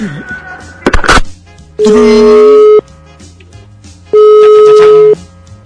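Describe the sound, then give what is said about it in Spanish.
Telephone keypad tones sound as a number is dialed: a brief burst of clicks comes first, then two sustained, clear beeps, each lasting about a second, separated by a short pause. “Espérenme, déjenme marcar. Tengo dislexia numérica, así que no me distraigan.”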